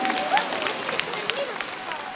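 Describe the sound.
Warm applause for a bishop at a parish gathering with children. Scattered, moderately quiet clapping continues steadily across the whole span.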